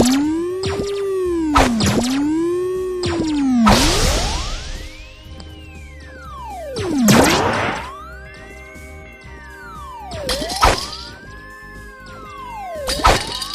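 A ball is launched high at targets in a video game, heard as whistling tones that arc up and down repeatedly, punctuated by several sharp whooshing and thwacking hits.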